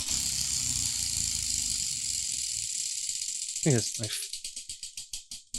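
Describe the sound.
Prize wheel ticking as it is spun: after a stretch of noise with a voice, a rapid run of clicks slows, with the ticks spacing farther apart and fading toward the end.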